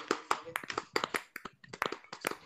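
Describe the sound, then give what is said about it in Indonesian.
Tepuk pramuka, the Indonesian scout clapping routine, performed by a group rehearsing it together: sharp, crisp hand claps in a quick patterned rhythm with small gaps, loud and distinct throughout. “Terus dia bilang, tepuk pramuka.”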